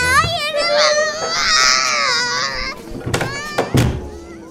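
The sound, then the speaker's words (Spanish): A child cries loudly in long, high, wavering wails that break into short, choppy sobs toward the end. “¿De qué estás llorando? ¡Cállate! Señora, por favor, vaya a hacer llorar a su hijo afuera.”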